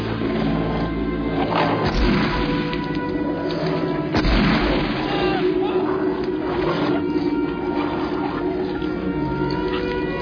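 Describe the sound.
Gunfire and heavy booms erupt in a chaotic fight, with a couple of sharp blasts standing out over a dense, continuous din and voices shouting throughout.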